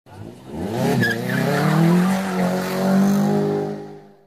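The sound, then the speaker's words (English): Car tires spin and squeal in one loud, sustained, wavering screech that lasts about four seconds before cutting off. “Let's spin the tires until they stick.”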